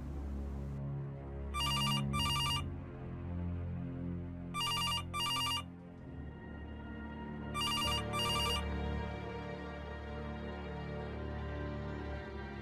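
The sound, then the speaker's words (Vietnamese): A telephone rings in three bursts of bright, electronic double trills, evenly spaced, over a low, steady background. “Vừa lúc ấy có tiếng chuông điện thoại reo vang.”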